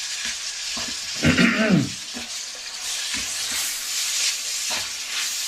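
Food frying in a wok with only a little oil gives a steady hiss while it is stirred, with one louder sizzling, scraping surge partway through.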